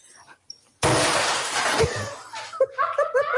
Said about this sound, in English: I'm going to smash this. I think I'm going to do it with a baseball bat.